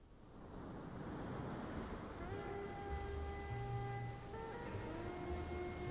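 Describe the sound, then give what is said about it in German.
Large ocean surf breaking in a steady, dense roar that holds at an even level throughout, with sustained musical tones entering partway and continuing over the rushing water. “Riesige Brandung.”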